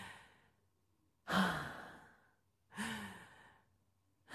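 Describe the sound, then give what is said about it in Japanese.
Two deep, slow breaths from a person being calmed, each a soft airy rush that swells quickly and then trails off, with quiet between them. “ほら、深呼吸して。”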